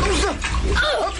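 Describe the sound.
Water splashes and sloshes as a baby is bathed in a tub, a busy continuous wash of splatter with a voice rising and falling over it.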